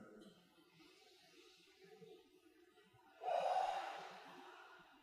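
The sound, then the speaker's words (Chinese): Deep breathing during a group breathing exercise at a Medicine Buddha blessing ceremony: faint, low background murmur, then one long, breathy exhale that swells and fades. “大家跟我一起做啊，做深呼吸。”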